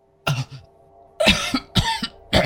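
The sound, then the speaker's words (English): A voice imitates a wounded woman coughing up black blood in a fantasy tabletop role-playing game. The sound is a few harsh, raspy coughs in separate bursts, heard alone without talk. “as she begins coughing up a little bit of black blood”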